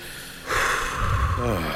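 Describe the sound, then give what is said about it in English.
A person takes a deep breath in, a loud airy rush that starts suddenly after a quiet moment and holds steady to the end. “say it, take a deep breath. Deep breath, everybody.”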